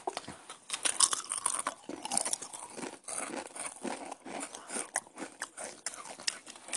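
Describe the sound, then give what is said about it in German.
Loud crunchy chewing with wet smacking, many rapid, irregular bites and mouth noises running continuously with no voices. “muss so richtig laut schmatzen, weißt du.”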